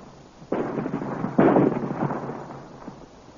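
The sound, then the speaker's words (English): Cannon fire aimed at a rock until it splits apart: two heavy booming blasts, the second louder, each trailing into a rumbling, crackling decay, with a fainter thump near the end. “They have found the range, Commander. You may fire. Fire!”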